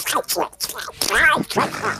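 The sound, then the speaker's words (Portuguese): A voice imitates Donald Duck, speaking in a raspy, quacking, nasal squawk that runs on without a break. “Porque o pato Donald, ele é meio louco. Ele fala...”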